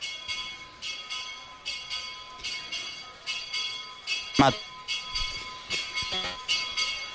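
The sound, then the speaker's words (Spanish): A small hermitage chapel bell rings during a country pilgrimage festival, sounding many steady, evenly spaced strokes with a bright, lingering metallic tone. Some louder, noisier bursts break in around the middle. “Sonando el campanil de la ermita en este momento”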